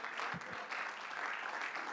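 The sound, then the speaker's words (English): A church audience claps their hands in dense, steady applause, many overlapping claps blending into a continuous patter at an even level throughout. “Give the Lord a hand clap, would you?”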